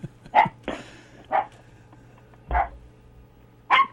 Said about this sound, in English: Hold on a second. This dog thinks his name is shut up.